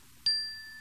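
A hand bell chime rung once: one bright, clear strike followed by a sustained high ringing tone that slowly fades, faint and alone.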